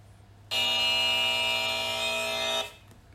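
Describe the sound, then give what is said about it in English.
A buzzer sound effect: one loud, harsh, steady electronic buzz with a rich, brassy tone. It lasts about two seconds, starting and stopping abruptly, with nothing else around it. “That's my little buzzer sound.”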